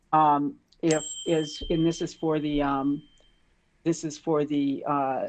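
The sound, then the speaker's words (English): A smartwatch notification dings, a bright, high, bell-like tone that rings on briefly while a person keeps talking over it. “my watch just dinged at me. Those dings just take my mind away from things.”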